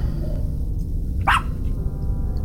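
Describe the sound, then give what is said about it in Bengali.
A dog barks outside, a single sharp, brief yelp standing out over a constant low rumble that fills the rest of the moment. “বাইরে থেকে এতক্ষণ একটা কুকুরের ডাক শুনতে পাচ্ছিলাম, এতক্ষণে সেটা একটু একটু করে কাছে আসছে।”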